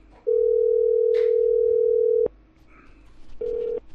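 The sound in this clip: Telephone tone after a number is dialed: a steady, loud single-pitch tone lasting about two seconds, then a quieter gap with faint voices, then a second, shorter tone near the end.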